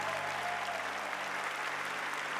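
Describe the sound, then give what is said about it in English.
A church audience applauding a baptism: steady, dense clapping from many hands fills the whole stretch at an even, moderate level, with no voices rising above it. “keep clapping. We are clapping for the newness of life that comes only through Jesus, the transformation.”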